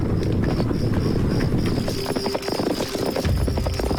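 Hooves of marching Northern Wei cavalry clatter in a dense, continuous clip-clop as many horses move quietly through a remote valley. The hoofbeats overlap steadily throughout, with no voices.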